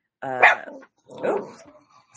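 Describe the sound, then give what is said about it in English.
Dogs barking in two separate bursts, the first sharper and louder, the second a bit softer, followed by quiet grumbling. “almost made it to the end without them barking. Go in the other room.”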